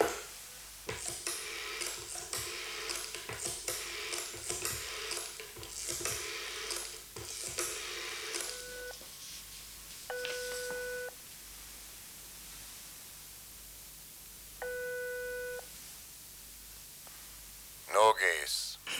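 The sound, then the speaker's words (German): A telephone dialled late at night, with rustling and clicking at first, then three separate buzzing ring tones at a steady pitch with pauses between them. “Ich ging in den Diktierraum zum Telefon.”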